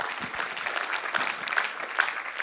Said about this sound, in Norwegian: Ja, nå gir dere en applaus.